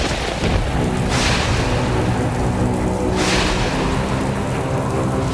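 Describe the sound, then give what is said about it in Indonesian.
Steady, loud rain hisses through a thunderstorm as the sky suddenly darkens, and two rolling thunder claps swell out of the downpour. “Langit mendadak gelap dan petir menyambar.”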